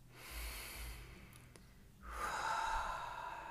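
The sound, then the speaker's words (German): Soft, faint breathing with a slow, deep inhalation swelling through the second half, alone and without speech. “Und atme nochmal ein.”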